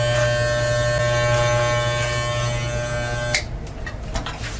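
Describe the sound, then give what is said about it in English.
Electric clippers buzz as they trim a man's beard down, a steady, loud, even-pitched drone that runs unbroken for about three seconds, then cuts off, leaving faint rustling. “We're going to cut this beard down a little bit.”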